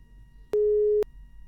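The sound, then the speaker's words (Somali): Busy tone after a phone-in caller's telephone line cut off: a single short, steady electronic beep, about half a second long, alone over a faint low hum. “qadka telefoonka ayaa ka go'ay”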